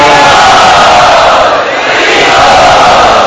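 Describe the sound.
A large crowd roars "Hari Bol" together to welcome a guest at a devotional gathering, a loud, sustained wall of voices with a brief dip midway before swelling again.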